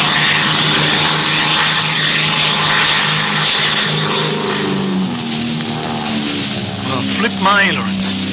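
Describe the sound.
An airplane engine roars in a dive as a loud, dense, unbroken drone throughout, with a voice briefly audible over it near the end.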